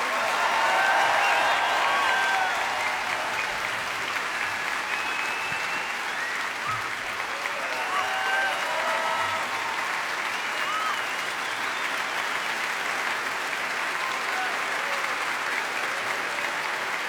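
Audience applause for Jules Buckley and the Heritage Orchestra at a Royal Albert Hall concert: sustained crowd clapping, loudest at first, then steady and dense, with a few whistles near the start.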